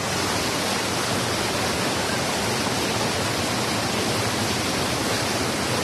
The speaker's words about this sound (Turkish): suyun şu an yükseldiğini de söyleyebiliriz bizler yayındayken. Demin bu kadar şiddetli değildi.